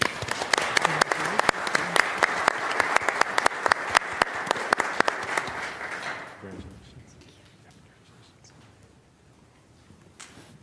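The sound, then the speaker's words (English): A church audience applauds to welcome a new member at a Sunday service. Dense clapping with sharp individual claps holds steady for about six seconds, then fades into near quiet with only a few scattered sounds. “Let us congratulate and welcome her in Christian love.”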